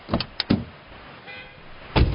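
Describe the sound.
Car door sounds as a man climbs into a car: a few dull thuds and knocks close together, a short quiet pause, then one heavier slam.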